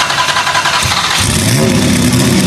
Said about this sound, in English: And I'm going to race Newman's GT1 car. So we're able to fire it up. You just give it a listen.